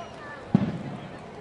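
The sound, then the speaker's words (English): A big firework booms beyond right field during a baseball game: one short, low thump followed by a brief rumbling tail, rising above steady background noise that stays quiet. “Big booming firework going off in the distance somewhere beyond right field.”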